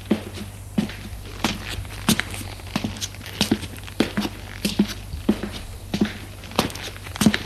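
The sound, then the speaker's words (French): Footsteps of several people going down a staircase: a steady run of many soft thuds and scuffs at an even walking pace, over a faint constant low hum. “Jean-Denis reste sur le palier et les regarde descendre les escaliers”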